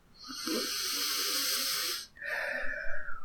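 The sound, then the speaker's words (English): A deep breath drawn in through the nose makes a long, steady hiss during a guided visualization. After a brief pause, a softer, breathy exhale through the mouth follows. “And I want you to take one more deep breath in through your nose and out through your mouth.”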